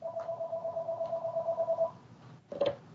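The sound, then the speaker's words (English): A telephone rings with a long, steady electronic tone. After a short pause a second ring starts near the end. “I may have to take this phone call.”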